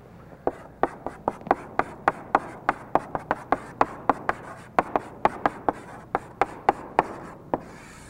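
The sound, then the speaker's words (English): Marker or chalk writing a word on a classroom board: many quick, sharp strokes and taps in a brisk, uneven rhythm, fairly loud and clear, with no talking over them. “Let me, let me just write the word up here on the board for you.”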